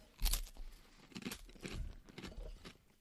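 Eating a crispy, rolled French-style wafer tube filled with cream: faint, brittle crunches and crackles come in a few bursts, with a soft crinkling texture between bites.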